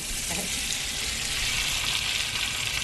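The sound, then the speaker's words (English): Butter browning in a pan for a sage brown butter, a steady, continuous sizzle with a bright hiss that holds an even level throughout, no voices. “To finish off the squash salad, we want to make a little bit of brown butter with sage.”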